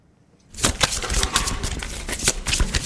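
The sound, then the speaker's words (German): Playing cards for a quartet game about the five world religions are shuffled vigorously: after a brief silence, a rapid, dense crackling flutter starts and runs without pause for over two seconds. “Zuerst werden die Karten kräftig gemischt.”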